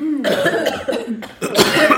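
Harsh coughing from someone choking on too much smoke: a few rough, breathy bursts in quick succession, loud and alone without talk.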